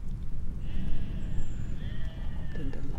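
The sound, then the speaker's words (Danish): Ewes bleating from a sheep fold: a couple of drawn-out, wavering calls over a steady low background rumble. “Morfårene, de kalder ude fra folden.”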